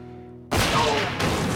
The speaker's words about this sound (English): He shoots Ivan.